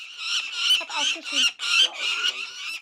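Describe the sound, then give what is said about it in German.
Two nine-week-old lanner falcons at a wildlife park give a series of harsh, high, squawking begging calls, repeated in quick bursts with short gaps. “Ihr Ruf bedeutet, Mama, Papa, hier bin ich. Die beiden Luggerfalken sind 9 Wochen alt und trainieren gerade das Fliegen im Tierpark Edersee.”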